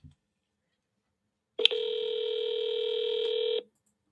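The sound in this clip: A telephone tone as a call is placed: a sharp click, then one steady electronic tone that holds for about two seconds and stops abruptly, with near silence around it.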